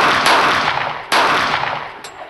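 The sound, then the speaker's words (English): Three loud gunshots from a Tommy gun ring out in a steady, evenly spaced sequence, each blast sharp and heavy with a long ringing decay. “his Tommy gun only shot out three shots instead of the 10 rounds it usually does.”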